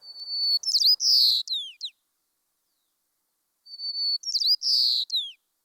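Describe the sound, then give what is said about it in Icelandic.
Normal song of the kúftillingur bird: two high, clear phrases, each opening with a steady whistled note that breaks into rapid chirps and a buzzy trill, with a silent gap between them. “Fyrst venjulegan söng kúftillings og takið eftir hvernig tónhæðin sveiflast og fuglinn syngur trillandi eða suðandi nótur.”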